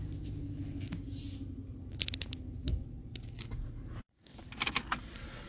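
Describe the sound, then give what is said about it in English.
Quiet clicks, clanks and a low mechanical whir as gas is pumped at a gas station, with a brief dropout near the end followed by a few sharper handling clicks. “All right, got to pump some gas here. Hold on.”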